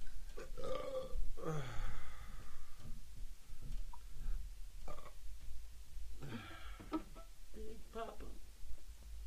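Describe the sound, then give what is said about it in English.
A man lets out several rough, gravelly burps, croaking bursts spread over about nine seconds, with people talking around them. “Good burp, dude.”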